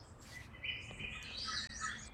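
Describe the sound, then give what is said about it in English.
Birdsong outdoors in Italy: faint chirps and tweets that continue throughout over low background noise. “you may hear some bird song behind me because I'm recording this outdoors.”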